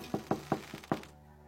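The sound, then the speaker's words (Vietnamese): Light knocks on a door: a quick, even series of soft, dull taps, faint and alone, then quiet. “Tôi dồn hết sức can đảm gõ nhẹ vào cánh cửa 3 tiếng.”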